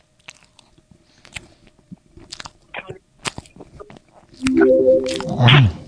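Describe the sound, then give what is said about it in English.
Chewing and biting as a person eats food: a scattered series of short, crisp crunches, then a louder, drawn-out tonal sound at the end. “Are you eating? Do you like to eat? I like to eat.”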